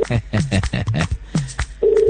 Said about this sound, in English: all numbers are ringing.